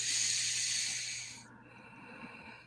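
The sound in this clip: One long, deep, airy breath taken during a guided breathing exercise: a loud, steady hiss lasting over a second that cuts off abruptly, leaving near quiet and a tiny click at the end.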